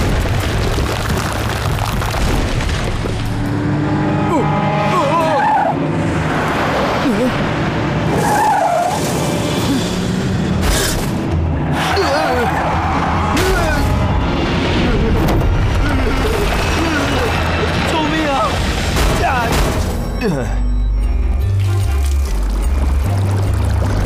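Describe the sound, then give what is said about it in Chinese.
A vehicle skids and crashes as a riverside cliff road collapses, with a tanker truck about to fall into the river. Loud, continuous tire noise and rumbling run throughout, with low booms near the end and voices at times. “请快来帮忙，这里道路塌陷，发生事故了，一辆油罐车马上要掉进江里了。”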